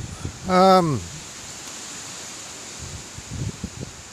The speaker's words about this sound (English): As you can probably hear, I'm out on the bike. It's a bit on the breezy side